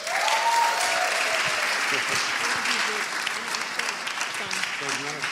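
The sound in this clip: A church audience applauds as a pastor is welcomed to the podium. The clapping is dense and steady throughout and eases slightly toward the end, with faint voices underneath.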